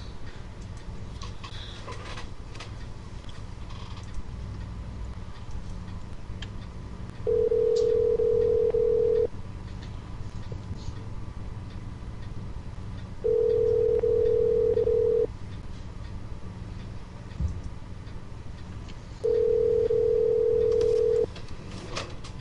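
Telephone call tones on an outgoing phone line: three long, steady mid-pitched beeps, each about two seconds, evenly spaced by quiet gaps over faint line hiss.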